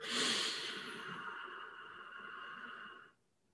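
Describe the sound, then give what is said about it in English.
One long, deep breath drawn in steadily for about three seconds. It is strongest at the very start, then stops abruptly into near silence. “Now one more very deep breath.”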